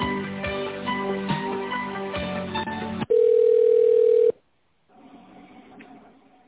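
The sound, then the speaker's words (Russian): A telephone line tone sounds while a call is transferred, a steady single pitch held for about a second after a denser, busier stretch, then cut off into brief silence before a faint murmur of line noise returns. “Хорошо, соединю вас с канцелярией. Оставайтесь на линии.”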